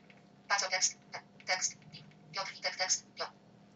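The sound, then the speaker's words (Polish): A phone rings with an incoming call, sounding as a few bursts of a high, melodic ringtone separated by short pauses, fairly faint over a low steady hum. “Ktoś tu do mnie jeszcze dzwoni, ale to oczywiście rozłączymy. Żeby nam nie przeszkadzało.”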